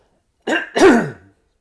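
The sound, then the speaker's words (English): A person clears their throat once: a short rough burst, then a louder raspy voiced rumble that trails off, with nothing else around it. “And then I'm going to clear my throat.”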